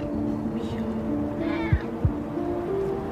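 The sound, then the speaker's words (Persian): Cats meowing in a yard as they are fed: a few faint, short meows over a steady low hum, with a couple of dull thumps. “سمیرا تو حیاط او داره به گربه ها غذا میده.”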